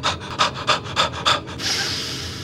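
Rapid, forceful bellows breathing: a quick series of sharp, breathy huffs in an even rhythm, followed by one longer, sustained rush of breath.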